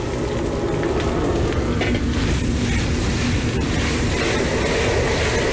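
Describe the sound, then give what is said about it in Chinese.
Marinated beef sizzles as it goes into hot oil in a wok, heated to about fifty percent. A dense, steady crackle and hiss runs without pause throughout. “油温烧至50热之后下入腌制好的牛肉。”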